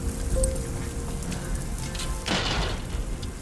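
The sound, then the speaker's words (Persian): Rain falling steadily: a constant, even hiss of drops hitting surfaces at a moderate level, with no pause from start to end. “اسماعیل پیاده زیر بارون میره”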